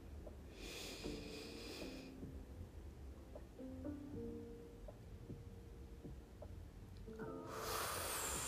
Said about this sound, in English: So, we're gonna breathe in.